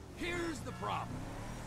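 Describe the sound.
A car driving in the video game GTA V, a low steady engine rumble running beneath continuous talk.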